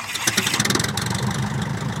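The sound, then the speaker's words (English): Small engine of a tiny airplane about the size of a motorcycle with wings, taking off near the park boundary to fly over the area looking for wolves; a loud, steady buzzing drone with a fast pulsing rhythm. “a tiny airplane about the size of a motorcycle with wings is taking off to zigzag overhead, looking for wolves.”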